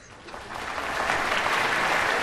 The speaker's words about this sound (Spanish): Los Rossi aplauden junto con el público.